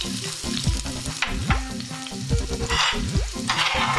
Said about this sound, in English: like to start off with 2 teaspoons of vegetable oil. Then add my rough chopped 1 medium onion.